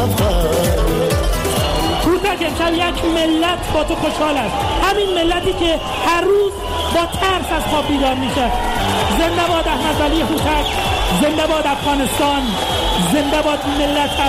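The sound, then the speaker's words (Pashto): Afghan spectators chant together at a fighting bout, a dense wall of crowd voices that stays loud and continuous throughout, with rhythmic shouted phrases rising over the general din. “هوتک بریالی کیږي او افغان نندارچان په یو غږ د ژوندې دی افغانستان چیغې وهي.”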